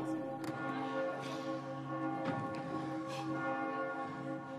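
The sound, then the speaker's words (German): Church bells peal in a continuous, ringing chorus, several overlapping tones sustaining while fresh strikes sound again and again at a fairly even pace, moderately loud and with no voices. “Ein Glockenläut!”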